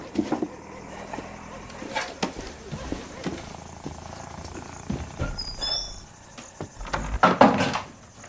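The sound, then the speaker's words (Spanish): A first aid kit snapped shut and stowed away in a cupboard: scattered clicks, knocks and light thumps, with a few louder bangs toward the end. “Cierra el botiquín y lo guarda en un armario.”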